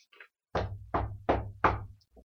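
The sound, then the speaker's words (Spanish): Knocking on a house door: four loud, evenly spaced knocks in a steady rhythm, each with a short low rumble, and faint brief sounds just before and after. “Entonces fue a buscarlo a su casa, y al llegar a la puerta, tocó.”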